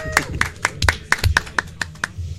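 Sparse clapping from a small audience for a contestant: about nine distinct, sharp claps at an uneven rhythm, fairly loud and brief.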